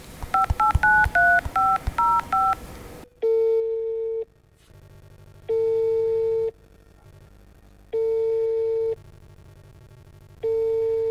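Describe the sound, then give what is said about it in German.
Telephone dialing: a quick, uneven run of short electronic keypad tones, followed by four long, evenly spaced steady tones with silent gaps between them. “Lass mal den Boss anrufen. Ich rufe ihn gerade an.”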